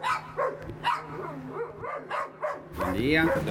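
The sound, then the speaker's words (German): Dogs bark at a resident's front door: loud, quick bursts that come unevenly over a low steady hum, growing denser and harsher toward the end. “manche müssen sich dafür erst einmal an bellenden Hunden vorbei zur Haustür der Bewohnerin kämpfen”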